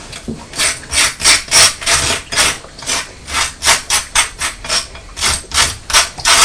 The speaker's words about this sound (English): That sounds loud, doesn't it? Sounds like Mummy's scraping the toast, but she's not. I'm only putting butter on it.